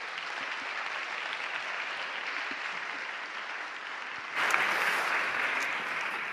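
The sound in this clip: An audience applauds to welcome a speaker, with steady, dense clapping throughout that swells a little louder near the end.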